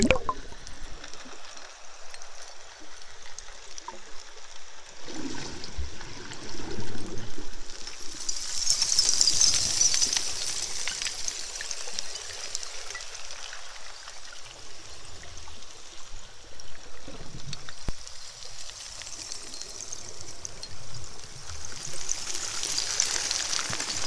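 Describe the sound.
Underwater ambience of flowing water, a steady muffled rushing wash with a brighter hiss swelling in the middle and lingering to the end, with no talk.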